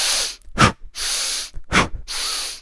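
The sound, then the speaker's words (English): Forceful breathing from an exercise of quick breaths in followed by a huge breath through the mouth: loud, sustained airy rushes alternate with two short, sharp puffs of air, with no talk. “I'll repeat that 3 times and then I'll take a huge breath in through my mouth, trying to get myself into this sympathetic state.”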